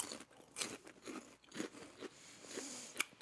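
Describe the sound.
Faint crunching and chewing of hollow, fry-shaped snack sticks that are lightly salted on the outside, heard as a series of crisp, irregular bites and crackles with no talk.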